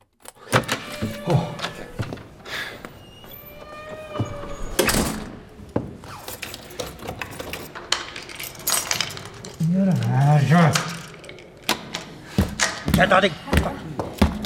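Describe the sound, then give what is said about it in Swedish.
Someone locked in rattles and yanks at a stuck door lock, producing bursts of sharp metallic clicks, clacks and thumps that come in irregular clusters, with a voice heard at moments. “Jag kom inte ut! Har de låst in mig? Vad är det här för jävla lås?”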